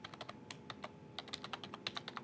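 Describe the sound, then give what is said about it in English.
Typing an admin password on a computer keyboard: many quick, light keystrokes in an uneven run, faint and steady, with no voices. “I then need to specify the admin password, so I'll type that in”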